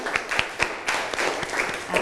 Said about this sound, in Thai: ปรบมือให้เพื่อนกลุ่มที่1นะคะ